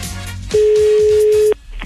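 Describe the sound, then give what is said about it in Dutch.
A single steady telephone tone lasting about a second as a call is dialed and rings through, standing out over faint background music. “Ja, oké, gaan we de bellen.”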